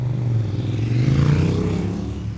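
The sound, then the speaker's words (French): A Citroën car drives past in flowing street traffic, a continuous low engine rumble with a broad whooshing wash over it. The sound is fairly loud and steady throughout. “il se fait dépasser par une Citroën qui s'avance dans le flot”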